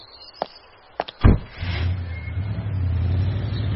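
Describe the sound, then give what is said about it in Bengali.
Audi car driving away: a few sharp knocks or clicks come first, then a low engine rumble sets in and swells steadily as the car pulls off. No voices. “খানসামাটি Audi গাড়ি চেপে বেরিয়ে যাওয়ার পর”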